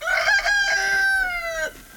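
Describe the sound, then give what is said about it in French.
A rooster crows among a flock of about twenty hens on a farm in the Ardennes, France. The call is a single loud, drawn-out, strained crow that drops in pitch at the end. “Anne Abraham vient nourrir sa vingtaine de poules, mais aujourd'hui, il n'est plus question de manger leurs œufs”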